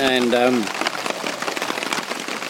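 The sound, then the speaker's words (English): Steady patter of rain falling on a tent pitched behind trees in a small roadside park: a dense, even hiss that continues without a break, with a brief voice at the very start. “it started to rain, and it hasn't stopped”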